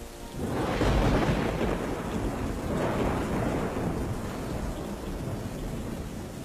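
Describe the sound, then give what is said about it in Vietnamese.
Rumbling thunder during rain: a deep, continuous roll that swells quickly near the start and stays heavy over a steady wash of rainfall, with no voices. “Một tiếng sét rền vang, báo hiệu khung giờ nguy hiểm đang đến gần với gia đình tôi.”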